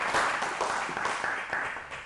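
A round of applause from an audience honoring a filmmaker after a Ukraine film: continuous, evenly textured clapping with sharp individual claps scattered through it, holding at a moderate level throughout.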